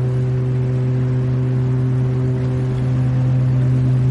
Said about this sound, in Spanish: Este se aleja, monta en un ferry. observa desde el muelle. El barco zarpa.